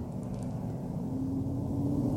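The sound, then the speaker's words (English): Steady road noise and low engine rumble fill the inside of a moving car, a continuous even drone with no breaks. “I'm driving, in case you can't tell.”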